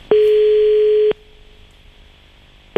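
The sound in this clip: Telephone tone heard while calling a number again: one steady, mid-pitched tone lasting about a second, then a pause with faint line hiss, then the tone starting again.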